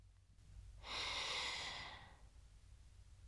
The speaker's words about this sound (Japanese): 鼻からでも、口からでもいいでちゅよ。息をすーっと吸って、